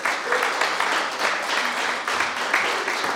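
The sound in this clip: Church audience applause welcoming a guest speaker at an evening service: dense, steady clapping that fills the whole few seconds without a break.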